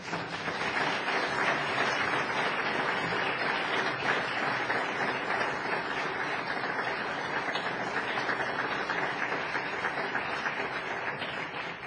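A church audience applauding to welcome a couple, with warm, dense clapping that stays loud and even for about twelve seconds without letting up.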